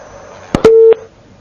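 A telephone busy signal sounds as a call to a phone-in line fails to connect: a couple of sharp clicks, then one short steady low tone ending in another click.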